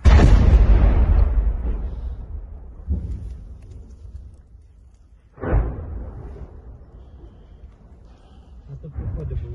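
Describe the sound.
Artillery fire in urban fighting in Bakhmut booms repeatedly, with a few heavy blasts, each followed by a long rumbling decay that fades before the next strikes.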